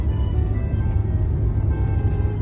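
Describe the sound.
A car on a long road trip gives off a steady low engine and road rumble, a dense continuous drone with no breaks and no talking.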